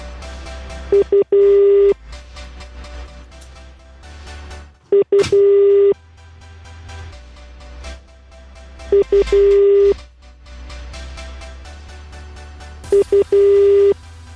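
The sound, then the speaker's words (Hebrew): Telephone dialing and busy-signal tones during a live on-air call: four clipped groups of loud, steady mid-pitched beeps, separated by a low hum. “חיוג בשידור, למי?”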